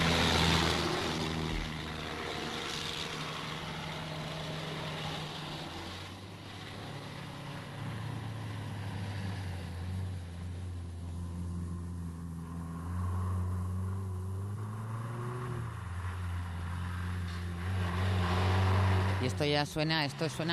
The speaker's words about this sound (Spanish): Esto suena a Jeep y además da como pinta de día de mucho calor, sí. y polvo, ¿no?